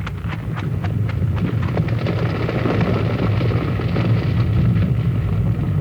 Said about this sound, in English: We got to get away from here before that avalanche comes down. Looks like it's starting.